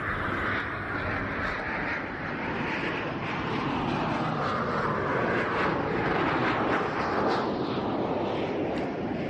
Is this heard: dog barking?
no